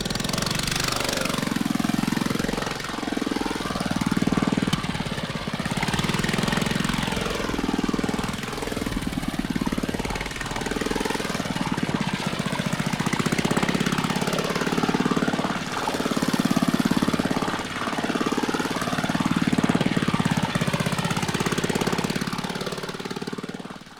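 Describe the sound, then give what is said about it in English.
Race cars circling a race course in a quadraphonic record demo, a loud buzzing engine roar that swells and fades in repeated passes as many cars sweep by without a break. “Sound. All around. And around. And around. As if you were in the middle of a race course.”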